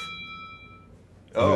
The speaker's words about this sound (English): we're already getting meditational chimes there.